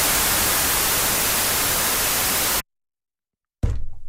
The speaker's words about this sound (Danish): Prøv at lade os lige få hvid støj igen.